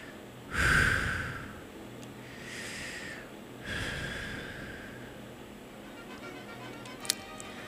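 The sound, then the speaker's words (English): Deep breathing during a guided breathing exercise: a few audible, breathy airflow sounds, the first strongest and the later ones softer, with no talking. “we're going to take a nice deep breath in. Inhale, exhale.”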